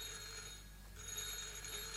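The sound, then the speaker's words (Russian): Telephone ringing, a faint, bright bell ring that breaks off for a brief pause and then starts again. “Простите, мне нужно подойти к телефону.”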